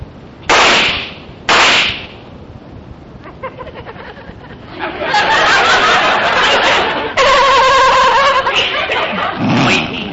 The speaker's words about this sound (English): let's fire his gun. That ought to do it. That's a good idea. Stand back.